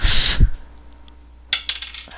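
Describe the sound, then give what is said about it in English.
A die rolled on a table gives a few quick, sharp clattering clicks as it tumbles and settles, close together and fairly loud against a quiet background. “I'm gonna blow on the dice, on the die.”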